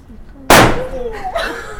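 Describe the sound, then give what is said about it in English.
A mid-size Corsair firework rocket goes off with one sudden, loud, sharp bang. Its noisy burst slowly fades over the following second, and other sounds continue faintly behind it. “I'm going to stick this just in the ground. Letting off rockets.”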